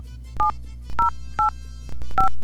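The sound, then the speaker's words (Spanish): Telephone dialing tones play during a call to an automated line: four short, clear dual-pitch beeps at an uneven pace over a low steady hum. “ahí está marcando ya.”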